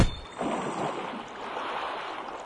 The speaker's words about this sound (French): Oh, l'eau, elle se sépare et nous pouvons traverser sur la terre sèche.